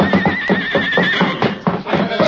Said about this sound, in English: Look out, that horse!